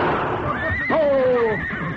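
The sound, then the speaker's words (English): A frightened horse pulling a carriage during a holdup gives a loud, drawn-out whinny that wavers and falls in pitch, over steady, dense background noise. “Stop that crazy horse.”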